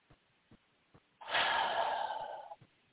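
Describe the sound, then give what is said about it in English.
One long, deep breath is drawn in, a soft breathy rush lasting over a second. It is faint and heard alone, preceded by a few small clicks. “And take a nice deep breath.”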